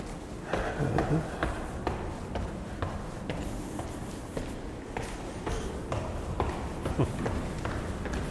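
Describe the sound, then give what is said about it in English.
Soft footsteps climb library stairs toward the third floor, a quiet run of many light taps and scuffs at an unhurried pace, faint and steady throughout with no talking. “But I'm going to walk up the stairs to the third floor because that's the healthy thing to do.”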